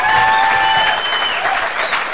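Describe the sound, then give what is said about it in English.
Applause and cheering from an audience, offered for the Mariners. Thick, rapid clapping from many people stays loud and continuous across the whole stretch, with a little crowd noise mixed in. “you probably should have some big cheers, but how about those Mariners?”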